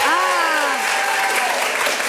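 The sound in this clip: Loud, steady audience applause at a live evening show, with dense clapping throughout and a brief vocal tone rising over it at the start.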